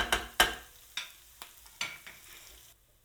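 Mushrooms confited with sofrito in a pan for mountain rice with ribs, sizzling softly under a few sharp utensil knocks and scrapes, the last ones fainter.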